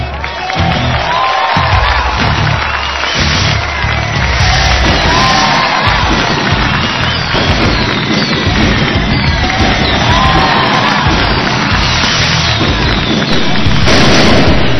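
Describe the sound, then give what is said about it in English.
A wrestling arena crowd erupts after a title win, a loud, dense, sustained roar of cheering and noise that stays at full force throughout with no quiet gaps. “Chris Ross has become the brand new eWrestling.org World Heavyweight Champion, and this place has exploded!”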